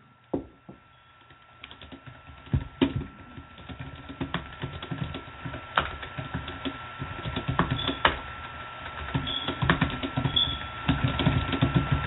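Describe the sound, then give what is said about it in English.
Typing on a computer keyboard, many irregular light clicks and taps that grow denser and slightly louder as the typing goes on, with a faint steady hum underneath. “Let me type this in for a moment.”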